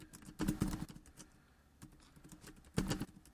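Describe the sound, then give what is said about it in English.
Typing on a computer keyboard: two short, quiet bursts of rapid clicking keystrokes separated by a pause of softer background noise. “Had to type that on Facebook at the World Wrestling Podcast.”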